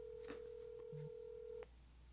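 Faint telephone tones from a keypad: a steady held tone with a brief lower tone partway through, cut off abruptly by a click.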